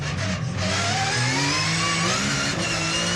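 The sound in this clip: A car accelerating hard at high speed, its engine droning loud and unbroken as the tone climbs steadily higher through one sustained pull.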